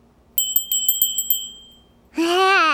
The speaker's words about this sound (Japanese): ほんと素敵なベルですね。 ねえ、ちょっと鳴らしてみていい？